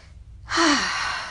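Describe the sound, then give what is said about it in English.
A single deep breath is taken in and let out: after a quiet moment, a loud, breathy rush begins abruptly, with a faint voiced tone sliding downward, then fades slowly. “we kind of need to take a collective deep breath. So let's just go ahead and do that on your own. Just inhale and exhale.”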